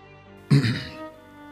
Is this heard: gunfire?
no